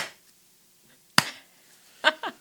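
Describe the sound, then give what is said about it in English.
A single weak hand clap, one sharp brief crack that stands out against near silence, with a few faint scattered sounds following. “That's a weak clap.”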